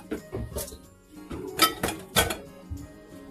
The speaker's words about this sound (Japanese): 子供たち連れて今会社の方に来てて、調理をしておりますね。